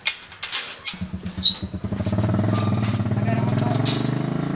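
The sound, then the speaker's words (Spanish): Motorcycle engine on a ride to a rural Yucatán apiary, along a stony, waterlogged dirt track after a storm. A few short bursts come first, then a steady droning engine note that grows louder and holds. “Para visitar a sus abejas recorren en moto 21 kilómetros.”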